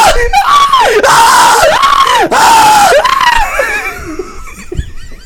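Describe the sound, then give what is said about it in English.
A man screams to scare people, letting out a series of loud, wavering, high howls that rise and fall in pitch, then trails off into quieter, breathier yells at the end. “What would it sound like if I scared you? And I would be like,”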